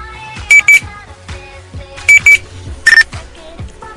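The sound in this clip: A Nextel phone's push-to-talk chirp: two loud, quick electronic double beeps, then a single slightly longer and lower beep, over a low rumbling background.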